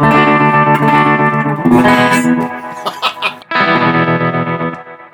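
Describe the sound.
Electric guitar chords, D major and E minor, ring through a tremolo placed after a large reverb. Sustained, washed-out strums change a few times, with a choppy, pulsing stretch midway before a fresh chord rings out.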